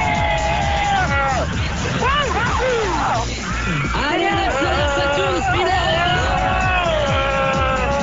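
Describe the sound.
A fairground ride, the Sensation Speeder, picks up speed amid a loud, constant crowd hubbub, with high rising and falling screams and whoops sweeping through the din.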